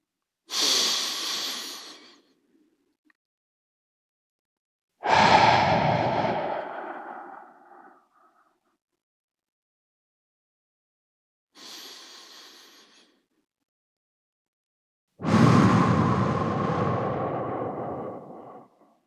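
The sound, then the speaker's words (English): Deep, slow breathing from a guided breathing exercise: four long, loud breaths, each drawn in and let out with an airy rush, separated by silent pauses and heard alone without talk. “And breathe in. And exhale.”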